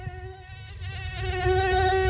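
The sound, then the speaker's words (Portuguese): A mosquito whines with a thin, high, steady buzz of layered harmonic tones over a low background rumble, growing gradually louder across about two seconds. “Na Bahia, o mosquito não se cria.”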